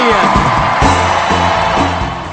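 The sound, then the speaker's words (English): A political convention crowd cheers loudly for Senator Edward Kennedy, a dense roar of whoops and shouted voices that holds strong throughout. “But the biggest cheer of the week went to Senator Edward Kennedy.”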